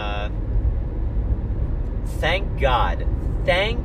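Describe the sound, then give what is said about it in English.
Low, steady road rumble fills the interior of a car while it is being driven, with a voice speaking in short bursts over the constant drone. “I'm in the car again, obviously. I'm driving back,”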